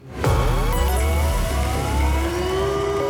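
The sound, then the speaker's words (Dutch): A radio station contest alert signal plays as a test round: a loud, continuous siren-like tone with gliding pitches over a low rumble, heard alone. “Dit is niet het noodsignaal waarvoor je moet appen, maar ik wil toch even laten horen hoe die klinkt, zodat jij weet wanneer je wel moet appen. Dus de proefronde.”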